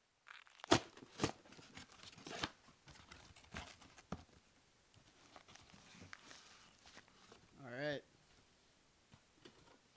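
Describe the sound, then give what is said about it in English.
Tape tears and cardboard rustles as a parcel box sealed with Russian tape is opened. A few sharp rips come early, followed by faint scattered crinkles and handling noises. “Just the box is awesome, honestly. The tape, the Russian tape. So let's open it.”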